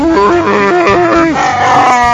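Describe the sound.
A man's voice imitates a Wookiee roar, a loud, continuous moaning growl with wavering pitch that rises and falls over about two seconds, heard alone.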